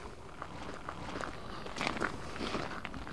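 People walk around a potato farm, their footsteps making many soft, irregular crunching steps that stay faint throughout.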